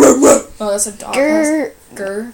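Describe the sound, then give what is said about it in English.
Loud, drawn-out dog vocalizations, three tonal yelping barks with a whining quality. The middle one is the longest, and short breaths or pauses fall between them. “Oh, that's a dog.”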